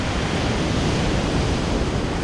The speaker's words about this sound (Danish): Alligevel er der store bølger, der brede og mægtige kommer rullende ind mod land.